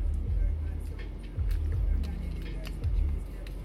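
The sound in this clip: Steady low road rumble inside a moving car, heard during a work drive by a company driver, with a dense engine and tire drone and a few broader swells in loudness, no talk.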